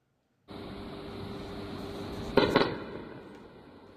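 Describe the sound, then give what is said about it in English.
Anti-aircraft air-defence fire over Tehran at night: a steady, hissing roar of noise, broken near the middle by two sharp, loud bursts in quick succession, then slowly fading. “air defences have gone off in Tehran, which had not been targeted in the latest round of escalation. These are the latest pictures coming out of the capital.”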